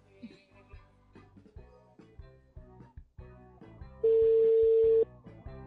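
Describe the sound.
An outgoing telephone call rings, a single loud ringing tone of about a second at a steady pitch, following a stretch of people talking, with talk resuming softly after it.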